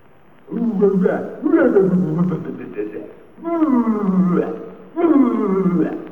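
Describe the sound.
A lion's roar in a 1932 German drama, imitated by a human voice: four drawn-out, rough growling roars in a row, each loud with a moaning tone, separated by short pauses.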